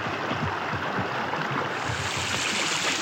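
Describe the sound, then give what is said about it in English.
A brook in Vermont flowing behind a porch: a steady, full rushing and babbling of water, even in loudness throughout, with no voices. “That's the name of the brook. And this is the sound of it.”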